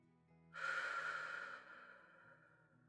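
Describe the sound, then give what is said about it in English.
One deep exhale during a guided belly-breathing exercise: a soft, airy rush that starts abruptly, holds for about a second, then slowly fades. It is faint, with no other sound. “So let's take a deep, deep breath down into our bellies. And when you're ready, exhale.”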